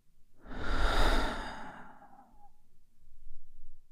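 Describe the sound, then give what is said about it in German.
A deep breath in and out during a guided mindfulness break: a long, breathy rush that swells and then fades, followed by a softer, quieter breath, with no talking. “Und nach einem weiteren tiefen Atemzug ein und aus.”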